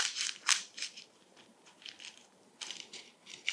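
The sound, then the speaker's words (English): Crinkly crackles of a paper envelope being crumpled into a ball, many short dry bursts in an uneven rhythm, fairly faint throughout. “I could just take the whole thing, crumple it like this,”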